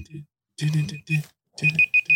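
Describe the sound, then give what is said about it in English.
A laptop emits a high, thin electronic beep, first as a sustained tone and then as a quick series of short pulses near the end, while people talk over it. “Is that my laptop again? It is my fucking laptop again. What's that beeping?”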